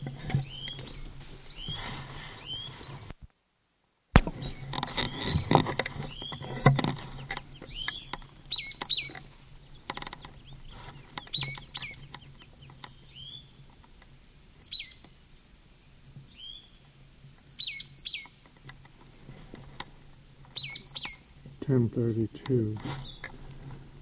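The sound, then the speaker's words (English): A bird calls over and over, the same bird each time: many short, high chirps come in small clusters, with quiet gaps between them, above a low steady hum. “Same bird.”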